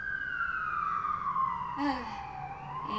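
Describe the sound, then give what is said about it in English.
An emergency vehicle siren wails in a city neighbourhood, a steady, fairly faint tone sliding slowly downward in pitch, with a brief higher layer joining midway. “Sorry about the siren in the background. As usual, the neighborhood that I'm in just gets a lot of sirens.”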